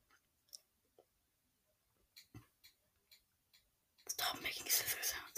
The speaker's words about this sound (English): Okay, he's cutting. There's nothing really interesting going on, he's just cutting open the ramen.